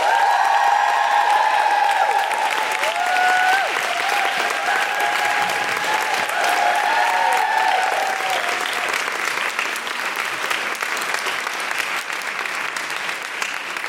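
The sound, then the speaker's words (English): An audience applauds and cheers a guest's arrival: a dense, steady roar of clapping mixed with whoops and excited calls, holding strong for around fourteen seconds before easing slightly toward the end. “Please put your hands together and make all sorts of excited noises for Jarlath Regan.”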